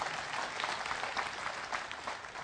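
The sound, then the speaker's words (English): A church audience claps in sustained applause, a dense, even patter of many hands that runs throughout without breaks. It is fairly soft, with no talk over it. “Go ahead and clap for that. I'll shut up for a while. You clap.”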